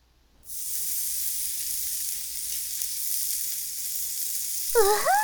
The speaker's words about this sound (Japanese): ではでは、お肉を焼いてみましょう。カルビ串、お願いします。